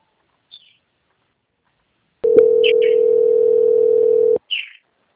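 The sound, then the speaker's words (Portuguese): A telephone tone sounds while a call is being transferred: one steady, loud tone holds for about two seconds and then cuts off. A few short, high chirps come before and after it. “que eu vou transferir a ligação para o controle de qualidade, que vai dar continuidade às confirmações”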